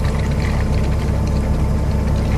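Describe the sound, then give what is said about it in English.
Liquid flows and gurgles through the cooling system of a hydrogen fuel cell bus, caused by trapped air bubbles near the roof-mounted fuel storage area. It is a steady, dense rushing wash over a constant low hum, with no voices. “Strange sounds of flowing liquid are heard from the fuel storage area, located on top of the bus.”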